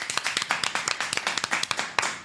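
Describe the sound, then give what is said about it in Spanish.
Many sharp hand claps ring out together as applause for partner radio stations, brisk and fairly even in rhythm, loud and without talk. “Supersónica, un aplauso para estas radios también.”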